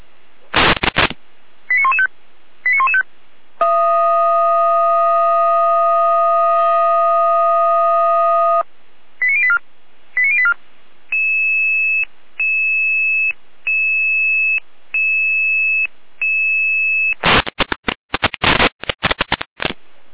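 Fire brigade alert tones come over a telephone line, calling out a volunteer fire brigade to a suspected water-damage incident: short beeps, a long steady multi-tone chord, then a run of evenly repeated pulsed tones, with crackly bursts of line noise at the start and end.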